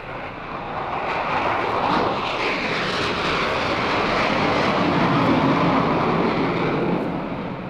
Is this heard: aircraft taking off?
yes